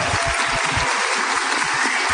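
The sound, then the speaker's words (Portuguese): Audience applause at a live studio event, a steady dense wash of clapping hands lasting about two seconds, fairly loud and even throughout with no voices over it. “que iria dizer a plateia depois do aplauso natural e espontâneo que ela vai fazer?”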